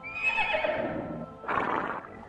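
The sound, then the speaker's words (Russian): A small horse neighs in a long, shaky whinny that slides downward in pitch, followed after a brief pause by a second, shorter neigh. “Ему послышалось, что где-то неподалеку заржала маленькая лошадь, но он не поверил.”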